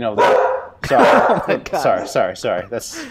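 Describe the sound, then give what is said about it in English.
A dog barks in a rapid run of loud, harsh barks with uneven gaps between them, each bark short and punchy. “You have a dog? Yeah, there's a dog here.”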